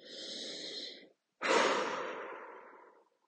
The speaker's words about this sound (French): Inspirez profondément par le nez.